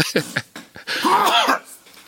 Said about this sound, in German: Oh, ich muss niesen. Achtung.